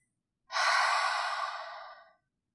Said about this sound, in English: We'll inhale through the nose to fill up the lungs and exhale through the mouth, making a sound like fogging a mirror. It will sound something like this.